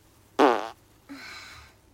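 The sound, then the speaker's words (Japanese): Two farts in a row: a short, loud, buzzy burst, then after a pause a longer, softer, breathy one that trails off. “おならが出そうなので出していきたいと思います。出します。”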